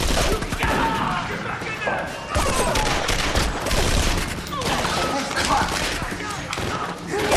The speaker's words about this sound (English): A full-scale gun battle erupts across the laundry.